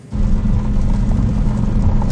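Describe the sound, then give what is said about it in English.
Cars going around the roundabout in the main square of downtown Troy make a loud, continuous low engine and road drone. It starts abruptly after a brief quiet moment and holds steady throughout. “we are actually in downtown Troy in the main square. I'll let you see what it looks like. There's a lot of cars here in the main square as we're going around the roundabout”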